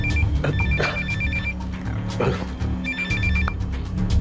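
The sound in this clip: A telephone rings just before it is answered, sounding two bursts of rapid trilling bell rings separated by a pause, over a steady low background rumble.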